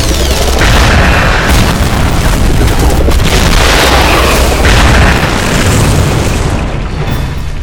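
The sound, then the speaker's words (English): Heavy explosions from two neutron bombs dropped by a bomber jet in a video game: a loud, unbroken roaring rumble with many booming bursts running through it. “Ready a bomber jet loaded with 2 neutron bombs. I want the target to be Pavlov City, dead center. Order received and carried out.”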